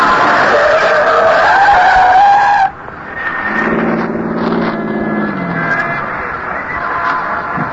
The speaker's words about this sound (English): A yellow taxi spins around the corner at 103rd and West End and settles to a stop astride a brown snowbank piled high at the curb.